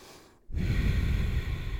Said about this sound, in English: Breathe. Bottom belly breaths. Making it a little noisy if you want.